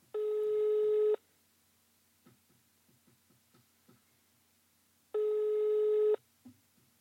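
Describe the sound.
An unanswered telephone call produces a ringback tone: two long, steady electronic tone bursts, each about a second, separated by a few seconds of near silence with faint clicks.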